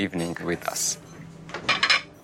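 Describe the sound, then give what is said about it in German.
Plates and cutlery clink and clatter as a table is set for a special evening dinner, in a few bright bursts separated by short pauses. “Wir decken besonders schön ein. Spezielle Teller, elegante Servietten, guter Wein.”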